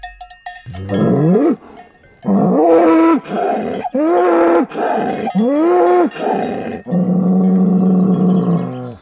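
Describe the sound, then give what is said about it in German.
A strong black bull with a nose ring bellows loudly, letting out a long series of deep, groaning roars in quick succession. The final bellow is drawn out and sustained, with a faint higher tone at the very start. “Ein kräftiger schwarzer Bulle mit Nasenring hat uns entdeckt und ist offensichtlich nicht sehr erfreut über unsere Anwesenheit. Der ist aber mal richtig am Röhren her.”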